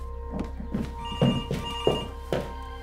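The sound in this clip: A telephone rings with a steady electronic trilling tone, its repeated pulsing bursts sounding clearly and alone for a few seconds.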